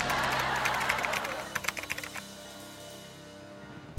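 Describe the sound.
Tapping on a device's keys to place an online order: a quick run of light, crisp taps, with a broad hiss that fades away afterwards.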